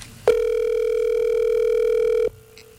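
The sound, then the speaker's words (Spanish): A telephone ringback tone sounds while a call waits to be answered: one steady, loud, mid-pitched tone lasting about two seconds, heard alone before it stops abruptly. “Ahí está timbrando.”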